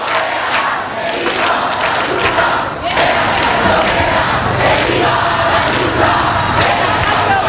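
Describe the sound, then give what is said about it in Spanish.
A protest crowd at Puerta del Sol chants "no pasarán" in loud, rhythmic unison, the massed voices roaring continuously throughout. “Pues no pasarán, no pasarán, lo estáis escuchando.”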